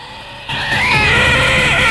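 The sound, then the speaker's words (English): A shrill scream erupts behind a man as a panicked crowd flees a monstrous creature in a film scene; a wavering, high cry rises out of a dense, loud roar and holds to the end. “He's startled by a scream behind him.”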